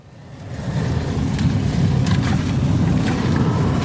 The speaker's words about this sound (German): Die Rodungsmaschinen fahren im Kreisherzogtum Lauenburg auf etwa 1000 Hektar Anbaufläche über die Felder.